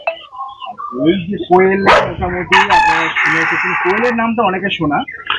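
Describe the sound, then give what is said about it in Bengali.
Japanese quail call from cages on a small farm, giving many harsh, loud, repeated calls that overlap throughout. “Japanese Koel,”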